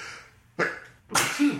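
A single sneeze: a short, sharp intake of breath followed by a loud, breathy explosive burst, heard alone.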